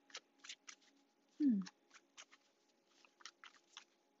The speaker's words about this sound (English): I finished shuffling at the bottom of the deck.